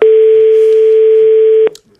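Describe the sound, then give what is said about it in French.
A single loud, steady telephone tone sounds as a call is placed. It holds evenly for under two seconds, then stops abruptly. “On va appeler Colette tout de suite.”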